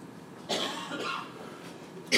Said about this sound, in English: Sorry for my coughing, I apologize.